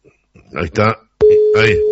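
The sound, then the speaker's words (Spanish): A telephone call rings through and connects, heard as a steady, held tone that begins partway in, with a talking voice before it and over it. “Ahí está entrando la llamada.”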